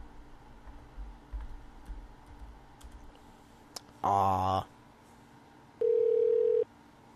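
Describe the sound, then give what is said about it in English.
A telephone call being dialed and ringing: scattered soft clicks, then a short harsh buzzing burst, followed by a single steady ring tone lasting under a second, with no voices. “We are calling a phone number.”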